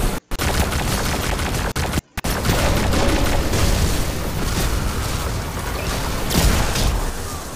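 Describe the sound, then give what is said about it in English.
Dense gunfire and explosions in a Gambit public match of a shooter video game, with enemy fire coming in: continuous, loud, booming bursts and rapid shots packed together with barely a pause, briefly cut to silence twice near the start. “Getting shot at in the face by a dumb Hydra.”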